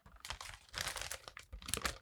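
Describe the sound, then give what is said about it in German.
Paper envelope being opened at a film award announcement: crinkling, tearing rustles in a few quick bursts of varying loudness, with no talk. “ich bitte dich, den Umschlag zu öffnen.”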